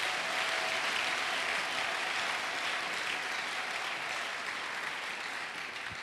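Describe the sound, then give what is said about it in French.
A church audience applauds the Lord during a worship service with continuous, dense clapping at moderate loudness for about six seconds, easing off slightly at the end. “Tu peux acclamer le Seigneur si c'est vrai.”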